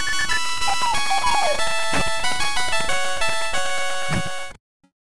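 Original Kung Fu video game soundtrack, slowed down: dense, buzzy synthesized tones with a wandering melody over a steady beat, loud throughout before cutting off abruptly near the end.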